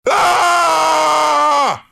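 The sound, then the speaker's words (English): A person gives one loud, sustained scream on waking up. It holds a steady pitch for nearly two seconds, then drops and cuts off sharply. “As soon as you wake up, one loud scream”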